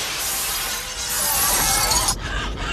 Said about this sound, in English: The cloud heads for the restaurant's glass windows like an oncoming tidal wave. Shattered glass rains on the customers.